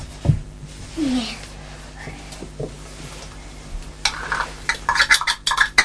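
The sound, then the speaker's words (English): Spoon stirring soup in a pot, heard as light metallic clinks and scrapes that grow into a busy run of quick taps toward the end, with a few brief vocal sounds early on. “Yeah. I'm mixing soup. You're mixing soup?”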